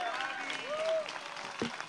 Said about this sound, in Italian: E allora adesso facciamo un applauso a tutti e quattro.